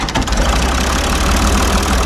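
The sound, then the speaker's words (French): A tractor engine runs with a loud, steady, low rumble and a rough, dense texture. The sound keeps an even level throughout, and no one speaks over it. “vous venez avec moi, je suis sur le tracteur”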